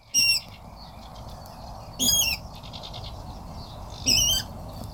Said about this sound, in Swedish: Det här är en vattenrall. En otroligt spännande och fin fågel som man kan se om man har tålamod.